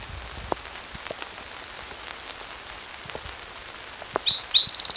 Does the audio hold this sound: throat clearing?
no

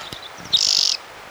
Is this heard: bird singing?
yes

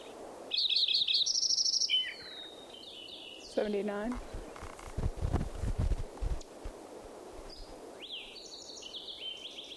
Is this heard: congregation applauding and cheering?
no

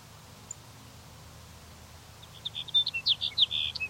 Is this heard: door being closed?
no

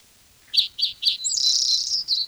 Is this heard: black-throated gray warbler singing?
yes

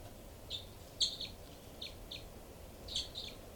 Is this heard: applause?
no

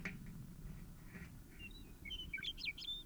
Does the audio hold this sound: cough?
no

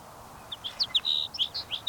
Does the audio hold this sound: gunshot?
no

